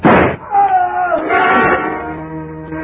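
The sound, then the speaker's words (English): Gunshot in a radio drama, fired low in darkness: one loud, sharp blast at the very start, followed by a lower, sustained rumble of sound. “I didn't want to fire, but I had to, and fast, in the darkness. Aim was next to impossible, but I shot low.”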